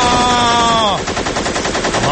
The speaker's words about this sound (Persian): یکم صدای جنگ پخش کنه، شما بیشتر در جریان ریز امور قرار بگیرید. مرداد جان شلیک کن لطفاً.